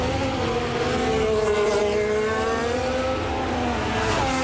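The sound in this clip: A Formula 1 car leaves the pits on its first lap during practice at the Azerbaijan Grand Prix, its engine a loud, sustained, buzzing drone whose pitch shifts throughout, with no voices over it.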